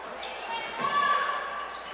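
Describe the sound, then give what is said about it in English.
Basketball bounces on a court during a women's game between teams including the Lady Spartans, under constant play-by-play commentary and a steady crowd murmur. “As the ball bounces off the referee”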